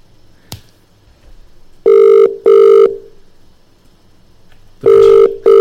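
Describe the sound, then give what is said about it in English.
Telephone ringback tone as an outgoing call rings out. It comes as loud, steady-pitched double buzzes: two short pulses, a pause, then a second pair cut off at the end. No one talks. “just dial him out of nowhere and see if he's on board to be a part of this.”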